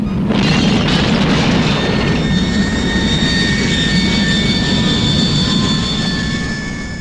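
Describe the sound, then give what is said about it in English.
Loud roar of a rocket flying upward, a dense sustained rumble with high whining tones running through it, holding steady before easing slightly toward the end. “It's flying a rocket. Up and up.”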